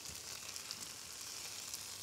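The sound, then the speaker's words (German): Steady sizzling of meat searing on a grill as it browns on both sides: a continuous, even hiss of frying fat that holds a constant loudness throughout, with no voices. “Von beiden Seiten werden sie links, rechts einfach nur angebraten.”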